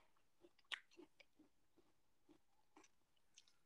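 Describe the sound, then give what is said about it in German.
Someone chewing pears: faint, soft, moist crunches and bites in an irregular rhythm, one sharper crunch standing out early, with no talk. “ich esse gerade Birnen.”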